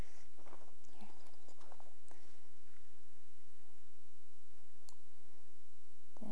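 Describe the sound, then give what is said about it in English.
Nail clippers cut a child's fingernails with a few faint, sharp clicks spaced apart over a steady low hum. No talk. “I need you to sit in my lap so I can get these fingernails cut.”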